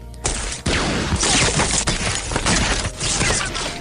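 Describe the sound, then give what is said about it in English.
Machine gun fire sound effect, with soldiers diving for cover as bullets ricochet nearby. Loud, dense rapid bursts run almost without a break for nearly four seconds after a brief quiet opening. “Suddenly we hear machine gun fire. A few bullets ricochet nearby and they dive for cover.”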